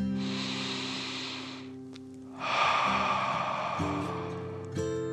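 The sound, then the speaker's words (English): A deep breath in and out: two long, airy, breathy rushes separated by a brief pause, the second stronger, over soft sustained music. “Wiley took a deep dragon breath in and out.”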